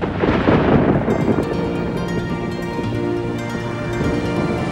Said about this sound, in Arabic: والشعلة تحت الشتاء رقصت، جنت العاصفة وهجمت عليها بكل قوتها